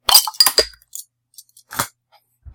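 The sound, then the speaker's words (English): Clinks and sharp knocks from a bottle of dark ale brewed with caramel, black and chocolate malts and English ale yeast as it is opened, a few bright glassy taps early on, then a short hissy burst amid quiet gaps. “They recommend that this beer be served at 10 degrees Celsius, since we're in Europe. And I'm going to crack this open.”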